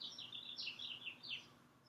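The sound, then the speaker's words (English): Birds singing: a quick series of high, thin chirps and trills repeats in a rapid run, then tails off with a last brief note. The song is faint over a quiet background hiss. “And I just noticed that I can keenly hear the birds singing.”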